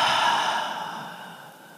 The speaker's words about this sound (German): und atme durch den Mund aus. Atme nochmal ein. Und atme aus.